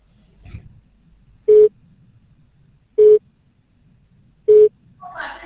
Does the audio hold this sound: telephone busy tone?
yes